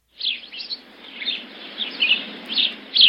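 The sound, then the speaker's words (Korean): A sparrow perched on an oak step by a door chirps repeatedly, giving many bright, high-pitched chirps and short twittering bursts in an irregular rhythm, fairly loud and with no voices. “마침 문 앞 떡갈나무 발판에 앉아있던 참새가 닐슨을 보더니 외쳤다.”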